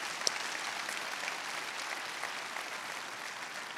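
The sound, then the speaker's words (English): Applause from a church-service audience thanking the volunteers: steady, dense clapping that holds at an even level for the whole stretch, with one brief sharper clap near the start. “Can we just give it up for all of our volunteers? Thank you so much.”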